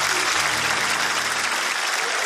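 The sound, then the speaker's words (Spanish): Applause breaks out for a guest who has traveled from Lircay, Angaraes, Huancavelica. It is a steady, dense patter of clapping that holds at an even level throughout, with a faint murmur of voices underneath. “Cuando dijiste Lircay, no, un aplauso.”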